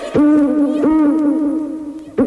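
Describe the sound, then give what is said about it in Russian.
An eagle owl hoots: a few loud, low, drawn-out calls, each opening with a sharp onset, with nothing else audible. “Тут филин заухал.”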